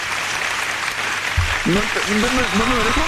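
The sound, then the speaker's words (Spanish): Steady applause runs through the whole short stretch, a dense even patter, and a voice begins speaking over it about halfway through. “me dejó un aplauso. Sí. Ahí te aplaudió, ¿viste?”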